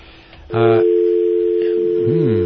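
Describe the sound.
A steady electronic telephone tone sounds on a call-in line. It begins abruptly with a brief buzzy burst and then holds at one even pitch until the end, with a voice briefly heard near the close.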